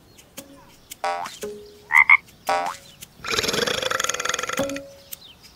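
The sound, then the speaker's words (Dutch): A frog croaking: a few short, low, raspy croaks spaced apart, followed by a longer rattling croak made of rapid pulses, with quiet gaps in between. “Nee, dat was het geluid van een kikker.”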